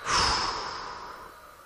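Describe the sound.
A single long exhaling breath, released during a guided breathing and muscle-relaxation exercise. The airy, soft rush swells quickly, then tapers gradually over about a second and a half, with no other sound.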